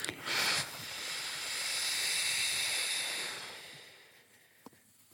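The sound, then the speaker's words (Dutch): During a breathing exercise, a voice makes a soft, sustained F sound: a breathy hiss that swells gradually louder, then trails away, after a short puff at the start. “Oké, dus nog een keer de F, hè? Ja, zachte F, steeds luider.”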